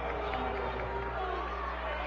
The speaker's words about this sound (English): Crowd is distraught about that call, as is Coach Ensel.